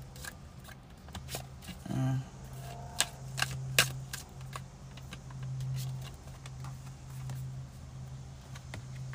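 Tarot cards are shuffled in quiet, papery riffles, with a few sharper snaps and clicks scattered through. A steady low hum runs underneath.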